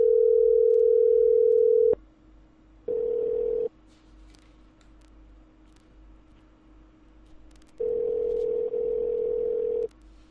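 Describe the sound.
Ringing tone of an outgoing telephone call to a collection company: a steady low electronic tone sounds in three separate bursts, a long one, a short one, then another long one, with quiet gaps between them.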